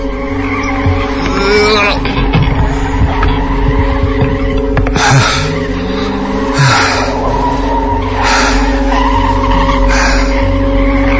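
A car engine at full throttle gives a loud, steady droning roar, with repeated tire squeals and skidding screeches rising above it.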